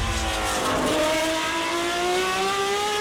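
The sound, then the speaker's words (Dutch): A 1972 Matra Formula 1 racing car engine screams loudly and continuously, its high, buzzing harmonic whine climbing steadily in pitch as it accelerates. “Een Honda met 12 cilinders uit 1965. Een Matra uit 1972.”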